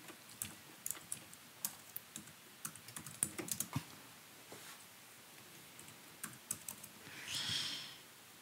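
Typing on a computer keyboard into a chat: faint, irregular clicking keystrokes that come in quick clusters and pauses, with no voices.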